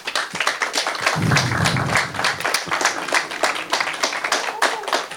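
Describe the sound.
Applause from a gathering: many sharp hand claps in a busy, uneven patter that swells and dips but holds at a lively level throughout.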